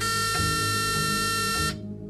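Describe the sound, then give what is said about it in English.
A courtroom buzzer gives one sustained, harsh buzz for under two seconds, then cuts off abruptly, leaving only a faint low hum. “A buzzer burst the silence.”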